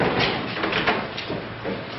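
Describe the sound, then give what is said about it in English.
Warehouse doors being shut behind a car: a moderately loud, rolling, sliding rumble with a few soft bumps that lasts about two seconds. “The doors are closed after him.”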